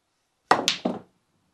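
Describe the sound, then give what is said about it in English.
A snooker cue dropped on the floor lands with three quick clattering knocks in rapid succession, loud and sharp against silence, the first the strongest and the sound dying away right after the third. “He drops his cue for comic effect.”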